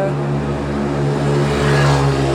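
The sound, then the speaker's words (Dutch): Moped engines drone steadily and loudly throughout, with a slight swell near the end and no clear break between passes. “Houd niet op met die brommetjes hier. Ik weet niet wat dat is, maar goed.”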